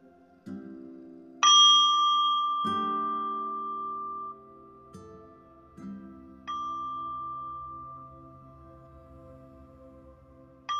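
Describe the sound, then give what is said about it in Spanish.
A singing bowl is struck during a guided meditation, with several bright strikes at uneven intervals. Each one rings out in a long, pure, sustained tone that overlaps the fading ring of the one before. “sonar el cuenco, puedes cerrar ojos.”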